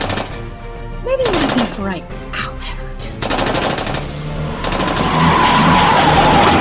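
Gunfire in an action scene, heard as loud, dense bursts of rapid shots that repeat several times with roaring noise between them.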